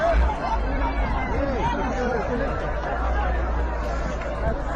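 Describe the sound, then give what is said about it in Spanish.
Crowd babble rises from Afghans with their belongings packed together at the Afghanistan–Pakistan land border crossing. Overlapping voices form a steady hubbub over a constant low hum, with no single voice standing out. “Este es el sonido de la frontera terrestre que separa Afganistán de su vecina Pakistán.”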